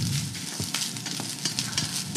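Rice frying in a pan, a continuous bright sizzle broken by a few light scraping clicks of stirring, at moderate loudness with no talk.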